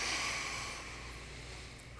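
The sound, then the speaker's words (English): A slow, deep breath, heard as a steady airy hiss that gradually fades over about two seconds and swells again briefly at the very end, with no talking. “So I invite you to take a deep breath, another deep breath.”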